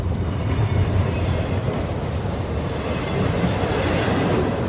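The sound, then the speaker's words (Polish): Passenger train departing from a station platform: a continuous low rumble and rattle of rolling rail cars at an even, fairly loud level throughout, with no voices. “siedzieli na peronie, obserwując odjazd pociągu, którym Eliza miała wrócić do Kijowa.”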